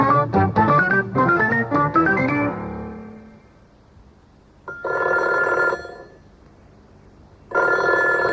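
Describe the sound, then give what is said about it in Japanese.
Telephone ringing: after a melodic passage fades out, a telephone rings in two loud, buzzy bursts of about a second each, separated by a short silence. “どっかから電話が入っているようですんでね、聞いてみたいと思いますが”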